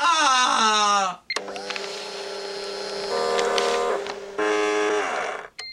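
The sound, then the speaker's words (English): Fax machines transmitting: steady, buzzy electronic tones stacked with harsh harmonics, broken by a short gap a second in and another near the end, with the tone bands shifting between segments. “So those are fax machines saying you're fired.”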